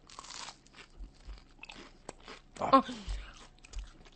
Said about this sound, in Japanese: 明太子がいっぱい入って、ね、いただきます。